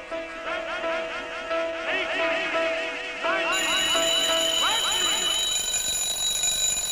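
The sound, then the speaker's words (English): An alarm clock rings during a studio recording of an orchestral song, set off at the end of counted empty bars to cue the players back in. A bright, continuous metallic ringing starts midway and continues loudly over the music. “he set off an alarm clock at the end of it to trigger everybody back into it again.”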